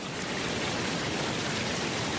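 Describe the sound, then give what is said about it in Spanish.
Steady rushing water from a small, calm waterfall meant for relaxation, an even, continuous hiss with no distinct splashes, fairly quiet and heard alone. “Esta es una cascada, che, me parece una catarata, una cascada, pero bueno, una cascada tranqui, no una cascada así, una cascadita”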